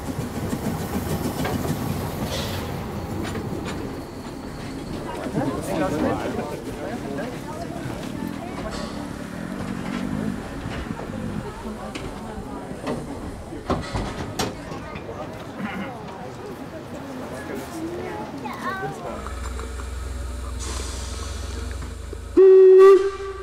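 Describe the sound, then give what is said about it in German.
Rasender Roland narrow-gauge steam train of the Rügensche Bäderbahn, running from Putbus at about 30 km/h, rumbles and clatters steadily along the track while people talk, then gives a short, loud whistle blast near the end. “Die Bezeichnung rasender Roland ist liebevoll gemeint. Denn die Rügensche Bäderbahn tuckert mit einer Geschwindigkeit von 30 Stundenkilometern”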